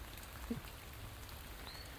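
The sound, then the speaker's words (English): Soft, steady hiss of falling rain, faint and continuous throughout, with one brief low knock early on and no voices. “Isn't that rain, lovely?”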